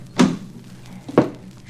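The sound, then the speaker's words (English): Two dull thunks from a car door being opened, about a second apart, each short and fairly loud over a quiet background. “Keep your hands quiet and get out. On my side, both of you. I'll open the door.”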